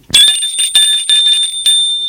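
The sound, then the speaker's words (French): A bell rings in several quick, bright strikes, like a doorbell at a house's door in the evening. The tone is clear and loud, and no voices are heard. “Elle sonne.”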